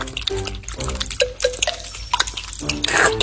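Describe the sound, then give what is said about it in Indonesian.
Cartoon-style drinking sounds as three frog friends gulp water quickly on a large leaf. Bright watery blips and drips come at varying pitches, ending in a louder burst of splashy liquid noise. “Tiga katak bersahabat itu bertemu di atas daun besar dan mulai meminum air. Tidelek minum begitu cepat,”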